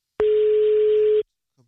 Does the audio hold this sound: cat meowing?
no